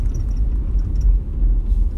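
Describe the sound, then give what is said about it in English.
Low engine and road rumble inside a Jeep while driving, a steady, heavy drone with no talking. “I am, of course, driving my Jeep.”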